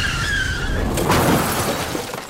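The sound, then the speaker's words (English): Tyres squeal as a car skids through a red light, then a crunching crash with shattering glass as it hits a motorcycle; the high squeal fades as the impact noise swells. “One red light you don't brake for in time, speeding through into that one motorcycle.”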